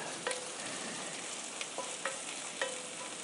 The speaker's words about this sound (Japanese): このちっちゃいフライパンでなんとかする。焼き目はつける